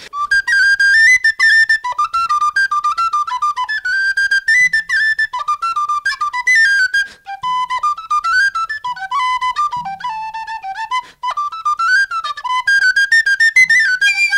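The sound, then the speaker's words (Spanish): A tin whistle plays a lively Irish folk tune, bright and high, in quick, ornamented runs and skips. The melody is unaccompanied and continuous, with only brief breaths between phrases. “voy a interpretar un instrumento que se llama la tin whistle. Es un instrumento irlandés.”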